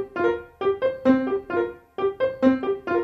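A marimba plays a short one-measure pattern over and over. Its quick mallet strikes ring out as bright, decaying notes in a steady, looping rhythm that repeats about twice.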